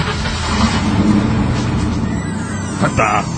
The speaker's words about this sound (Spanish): con ovnis que ya de mayor consumo, como el de ocho cilindros ubicados en B, con carburador de dos bocas.